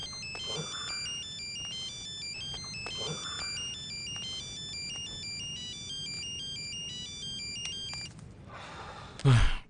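A mobile phone ringtone plays a repeating melodic pattern of bright electronic tones for about eight seconds, then stops, followed by a brief louder noise at the very end.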